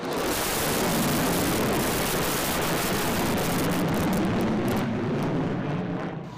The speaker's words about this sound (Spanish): el paso de un bombardero provocó unas escenas que parecen fuera del guión.